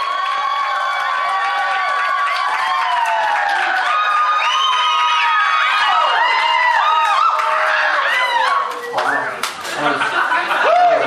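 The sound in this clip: A crowd applauds and cheers loudly to welcome a speaker, with claps, whoops and high whistling shouts. The sound stays dense for most of the eleven seconds, then thins and becomes choppier near the end.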